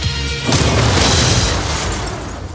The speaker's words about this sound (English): That's a photon blast.